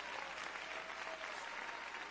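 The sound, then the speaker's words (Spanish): Steady applause from an audience praising the Lord during a worship service: dense, continuous clapping with no separate claps standing out, holding an even level for the whole clip. “Dale un aplauso de alabanza al Señor.”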